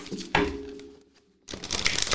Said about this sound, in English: I'm going to also pull some oracle cards. I'm going to pull a postcard. There we go.